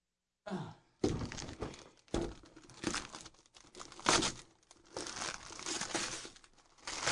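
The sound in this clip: Paper tearing and crinkling as a gift wrapped in paper is opened, with a series of rough, irregular bursts of ripping and rustling over several seconds, quiet and with no talk.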